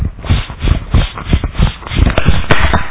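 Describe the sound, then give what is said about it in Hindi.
Light jogging in place on the toes gives many soft, quick footfall thumps in a steady, rapid rhythm, fairly loud and close, with no talking. “Running करनी है हल्की से simple. चलिए सिर्फ 30 second शुरू करें”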